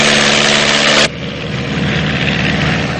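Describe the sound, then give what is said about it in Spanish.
A light aircraft engine roars loud and steady as the plane rolls down a World War II–era runway. About a third of the way through, the tone shifts abruptly to a slightly lower, duller drone. “La avioneta recorre la pista. Despega.”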